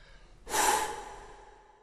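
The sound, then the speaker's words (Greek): Heavy breathing from a person imitating a giant catching his breath: one long, breathy exhale that bursts in suddenly and then fades slowly, heard alone without talk. “Ο γίγαντας σταμάτησε να πάρει μια ανάσα.”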